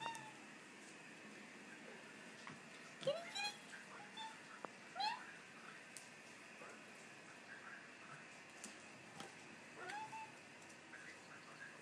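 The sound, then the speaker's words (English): Hungry cats meow for food. A few short, faint meows stand out at scattered moments over a quiet, hissy background. “I'm going to try to record my cats meowing because they're wanting to eat.”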